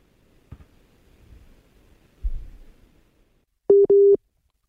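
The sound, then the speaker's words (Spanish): Busy tone from a dropped WhatsApp audio call from Ecuador: two short, steady, mid-pitched beeps arrive near the end, after a stretch of faint, crackly line noise. “Hemos perdido la, la conexión con, con, Martín Anselmi. Están fallando las conexiones. Llamada de Ecuador.”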